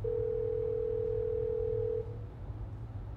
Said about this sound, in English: Okay, I'm just dialing 061. Okay, here we go.